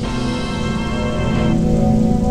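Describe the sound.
Steady, heavy rain pours without pause, a dense and loud continuous hiss that fills the whole clip with no voices.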